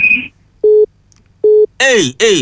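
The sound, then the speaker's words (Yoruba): Busy tone from a phone call that has been cut off: two identical short electronic beeps separated by a pause, preceded by a brief higher tone and followed by a voice speaking. “Ó ti já àtọ̀dọ́ yín ni o.”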